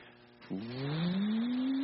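Car accelerating, a faint start giving way to an engine revving up, its tone climbing steadily in pitch as it drives faster.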